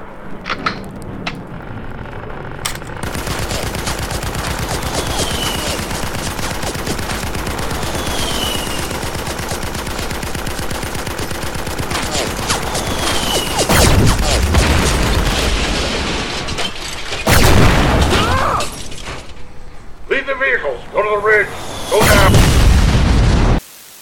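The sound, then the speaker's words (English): Heavy gunfire and explosions as a position with a big gun comes under attack: continuous loud automatic fire layered with deep booms, growing denser and heavier in the second half with several large blasts. “Seven Alpha 3, under fire. Repeat, under fire. Incoming! Get that big gun going.”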